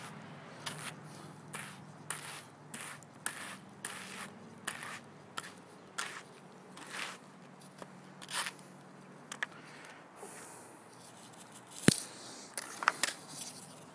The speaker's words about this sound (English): I'm just going to pull a lock out, pick any cucklebur debris from it, and then throw it on the hand cards. Card it up and spin it long draw.